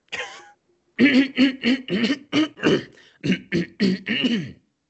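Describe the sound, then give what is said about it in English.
A person clears their throat, one short rasp followed after a pause by a quick rhythmic run of many voiced, gravelly bursts, loud and close. “You ruined my throat clearing. Hold on.”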